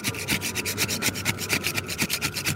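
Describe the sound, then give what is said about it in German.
A restorer scrapes large black floor tiles near the altar of an orthodox church, making rapid, rhythmic rasping strokes that are fairly faint and steady, with no voices. “Vorsichtig schabt ein Restaurateur über große schwarze Bodenfliesen, nur wenige Meter vom Altar im orthodoxen Teil der Kirche entfernt.”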